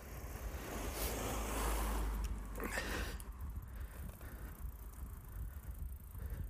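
A car passes a cyclist on the road: a broad rushing roar swells over the first two seconds, then fades back into a steady low rumble.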